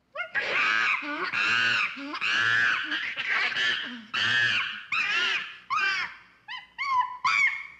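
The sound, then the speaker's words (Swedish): An angry chimpanzee screaming in a long series of shrill, harsh calls, loud and rhythmic with short gaps between them. The later calls become shorter and choppier. “Sök på angry chimp sound på YouTube så fattar du.”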